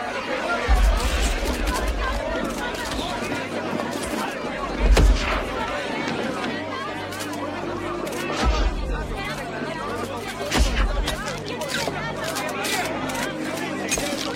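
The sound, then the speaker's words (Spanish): A crowd of reporters chatters in a steady babble while photographers fire their camera flashes. A few heavy low thuds break through at irregular moments. “Delante de un edificio alto, se han reunido reporteros. Danny y Karen se abren paso entre la multitud mientras los fotógrafos disparan sus flashes.”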